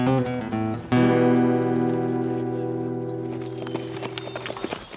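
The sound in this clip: Horses' hooves clip-clop as four riders leave on horseback, with rhythmic clopping beside a loud sustained tone that fades slowly.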